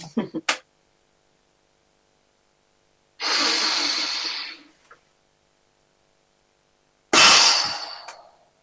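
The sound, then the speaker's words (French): Two forceful exhales are pushed out through the mouth after a muscle contraction. Each is a loud, breathy rush separated by silence, the second with a sharper onset before it fades, and a few short clicks come at the start. “j'expire d'une manière puissante par la bouche, comme une espèce de pneu qui va éclater. Ça donne ça.”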